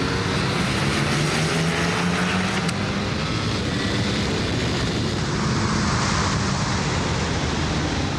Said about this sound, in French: de toutes les Ducati que j'ai essayé, c'est la plus puissante et la plus facile. Hop, point de corde. Et là, la ligne droite.